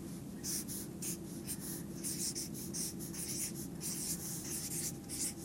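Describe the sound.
A pen scratches across paper as someone writes a note, in quick, irregular strokes. The scribbling is faint and steady, with no voices.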